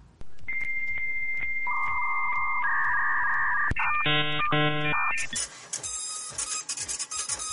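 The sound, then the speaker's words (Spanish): A printer prints out news pages. It gives a run of electronic whine tones that step between pitches, then a quick pulsing chatter, and ends with a rough, busy rattling as the paper feeds. No one speaks. “Las acabo de imprimir con la cola.”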